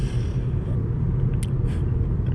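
A car drives on the road, giving a loud, continuous low rumble that holds steady throughout, with a brief faint hiss partway through.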